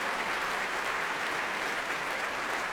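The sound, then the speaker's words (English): A concert audience at the Royal Albert Hall applauds the combined chorus of singers, a thick, continuous roar of clapping that stays loud and even throughout. “And a huge cheer from everyone here in the Royal Albert Hall for the combined forces of the singers.”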